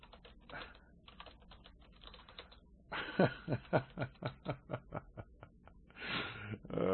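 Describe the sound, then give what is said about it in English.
Typing on a computer keyboard: a quick run of clacking keystrokes in a steady rhythm, with softer, scattered key noise before and after the main burst. “Let me just type in here.”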